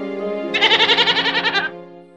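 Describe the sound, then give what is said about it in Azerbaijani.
A spotted goat gives one loud, trembling bleat lasting about a second, its voice pulsing rapidly against a steady tonal drone that fades out afterward. “Mən belə keçi görməmişəm. Keçi it kimi quduzlaşıb, adamın üstünə gəlir.”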